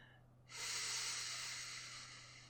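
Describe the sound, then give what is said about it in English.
Deep breathing: after a quiet moment, one long, steady, airy inhalation begins and holds, soft and breathy, fading slightly toward the end. “Take some deep breaths. In”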